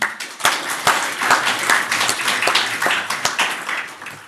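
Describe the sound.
Applause welcomes a speaker at a Canberra talk on the World Bank, a modest audience whose individual claps stand out as uneven sharp smacks, rising and dipping in loudness over several seconds.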